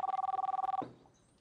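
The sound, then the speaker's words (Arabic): A telephone bell rings in a house: a rapid, bright electric trill lasting under a second, then it cuts off abruptly, leaving near silence. “ما في حدا بهالبيت ليرد على التليفون؟”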